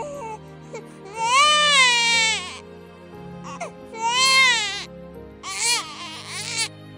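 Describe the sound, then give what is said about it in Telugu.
A newborn baby cries in three loud, wavering wails, each rising and falling in pitch, separated by short quieter gaps over a low steady background. “వాళ్ల నవ్వుని break చేస్తూ ఏడుపు మొదలుపెట్టింది”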